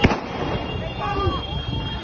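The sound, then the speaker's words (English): Gunshot fired by police at a violent night-time street protest in Rotterdam: one sharp, loud report at the very start, then a rough crowd din with voices underneath. “You hear the shots that are happening there.”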